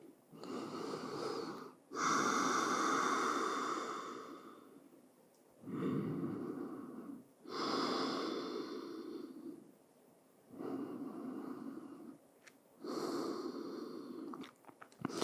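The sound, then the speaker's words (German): Deep breathing in a yoga child's pose: several long, airy breaths in and out, fairly loud and steady, each separated by a short pause, with no talking. “Gib deine Stirn gerne zum Boden. Genehmige dir hier drei tiefe Atemzüge.”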